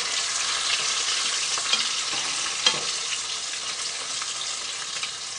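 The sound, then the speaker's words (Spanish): Fish frying in a pan gives off a steady, bright sizzle, with a few louder crackles and pops rising briefly above the constant hiss of the hot oil. “Me casi va quedando el pescado. Se lo voy a dejar frito a mi hijo para que ya nada más lo caliente un poquito.”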